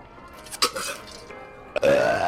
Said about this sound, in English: you just burped. I did? I don't even notice anymore.